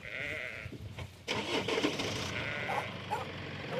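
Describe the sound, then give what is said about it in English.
Lambs bleating in an implement shed converted into a lamb-rearing system: a few short, high bleats overlap over a steady low background rumble. “Alistair's wife Jenna is busy rearing lambs that she plans to on-sell”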